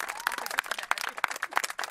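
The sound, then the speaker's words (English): A crowd of constituents claps at a governor's event, a quick, uneven scatter of many sharp claps that stays fairly faint throughout. “They cheer.”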